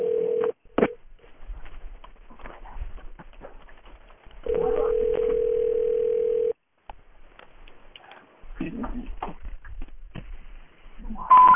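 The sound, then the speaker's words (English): Telephone dial tone and dialing over a phone line: a steady, fairly loud hum lasting about two seconds, set among short tone bursts and clicks of dialing and some muffled line noise. “Here we go. Oh. I'm calling Trey Parker.”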